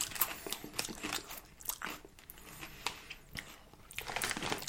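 Crunching and chewing on a lime and chilli flavoured snack, with many quiet, irregular crisp bites and crackles and no talk over them.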